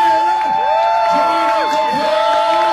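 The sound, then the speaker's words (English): Political rally crowd cheers for a candidate before an election, with loud whoops and yells rising and falling in pitch over a steady bed of crowd noise. “so stand up and give him a cheer”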